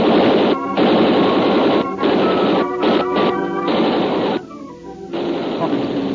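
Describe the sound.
Loud, dense gunfire aimed at a man on a ship's deck during a contraband arms landing, sustained crashing bursts broken by a few brief gaps and a quieter stretch near the end.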